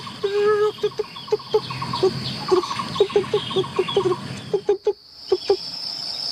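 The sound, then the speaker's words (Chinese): A woodpecker calling loudly: many sharp, clucking call notes repeated in a fast, uneven series over a steady high insect drone. “这个是黑莓尼啄木鸟的叫声， 多响亮！它就一只， 但是它叫的声音比别的鸟要穿透力更响、 更远。”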